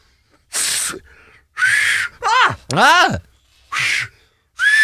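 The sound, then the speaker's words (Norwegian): Finger whistling, played with the fingers in the mouth, comes as four loud breathy blasts, each carrying a thin high whistle tone. Short voiced exclamations with rising and falling pitch sit between the blasts. “putter da fingrene I munnen og klarer å plystre med dem”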